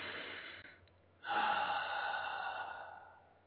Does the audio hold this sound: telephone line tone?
no

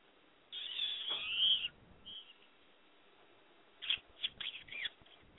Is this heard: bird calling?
yes

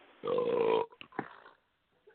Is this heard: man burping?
yes

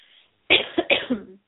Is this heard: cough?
yes

